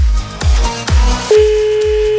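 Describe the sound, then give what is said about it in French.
A steady telephone line tone sounds as a call is placed. A few dull low thumps come first, then an even, unbroken mid-pitched tone holds to the end. “Allez, on appelle.”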